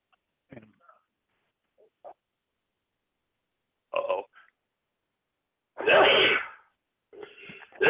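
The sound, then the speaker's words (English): A sneeze bursts out loud and broad during a chat about baseball, set among a few quieter breathy and throaty noises before and after it. “Ew. I'm not coughing today. I'm going to sneeze all day.”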